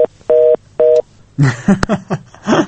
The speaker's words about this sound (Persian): د دې ورو ټلیفون قطع شو